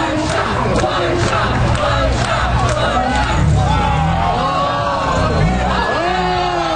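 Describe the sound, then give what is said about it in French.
A crowd of spectators cheers at a street competition in Philadelphia, a loud continuous roar of shouting, whoops and yells that stays dense from start to finish. “On entend quoi? Le son d'une compétition inédite. On est à Philadelphie.”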